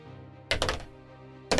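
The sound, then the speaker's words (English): Dice rolled in a gambling game: a burst of several rapid clattering knocks, then a quieter stretch with a low background hum, ending in another sharp knock. “You guys start the gambling and the rolling of the dice.”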